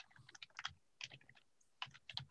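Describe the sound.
Typing on a computer keyboard, faint quick bursts of key clicks separated by short pauses.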